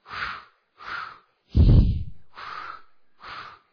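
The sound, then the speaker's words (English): Rhythmic breathing from a childbirth breathing exercise: five separate breathy puffs in a steady pattern, the third one deeper and heavier, clear and fairly loud with no talk. “So we had all these breathing exercises that we had to practice. We did the all right, everybody do that with me. Ready? Here we go.”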